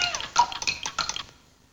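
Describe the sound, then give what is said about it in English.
Bubbles blown underwater: a quick, busy burst of many burbling, popping water sounds at moderate loudness for about a second, then fading out quickly. “blows bubbles in her underwater castle”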